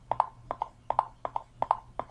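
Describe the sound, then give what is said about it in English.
Footsteps walking down a hallway in a video game: a steady run of hard, hollow clip-clop taps falling in quick pairs, with a faint low hum beneath and no talking. “And we'll start walking down the hallway with a single finger tap and keep tapping until you reach your next destination obstacle.”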